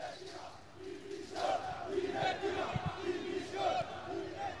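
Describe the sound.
Football supporters chant and cheer around the stadium in Palma, Mallorca, with many voices in a fairly faint, rhythmic chant that repeats in rising and falling phrases.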